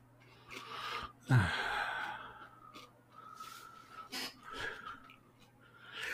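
A young man catches his breath with a series of heavy breaths. One loud, sharp gasp comes early, followed by several softer, uneven inhales and exhales.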